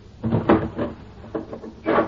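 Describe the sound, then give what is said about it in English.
A door is shut, giving a few short wooden clunks and rattles spread across two seconds, with no voices. “Close the door. Lock it”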